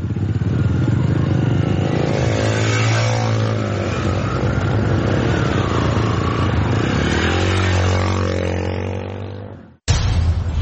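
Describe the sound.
A black 150cc motorcycle revs and pulls away: a loud, continuous engine note whose pitch rises and falls with the throttle, then cuts off abruptly near the end, followed by a brief burst.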